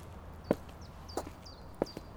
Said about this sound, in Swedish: Börja nu promenera framåt. Ungefär i takt med stegen som du hör i bakgrunden.